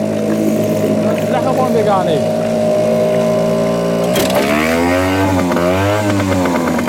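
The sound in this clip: An old boat engine runs with a rough, steady drone, then revs up, its pitch rising and wavering as the throttle opens and the loud buzzing grows harsher.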